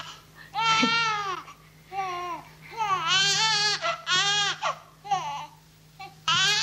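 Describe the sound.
A baby cries in a series of several wailing, harmonic bursts separated by short pauses, rising and falling in pitch, over a steady low hum.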